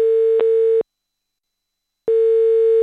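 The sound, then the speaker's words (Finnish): Ringing tone of a call placed to a mobile phone in Tikrit, Iraq, amid cut communication links: two sustained, buzzy tone bursts separated by just over a second of silence. A brief click sounds within the first burst. “Silmälääkäri Usama Abdul Qadirin matkapuhelin kuitenkin hälyttää Tikritissä.”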